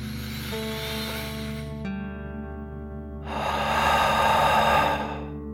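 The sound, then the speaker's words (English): Deep, slow breathing during a guided relaxation exercise: two long, soft, airy breaths separated by a pause, heard over sustained, gentle musical tones. “Deep breath in and out.”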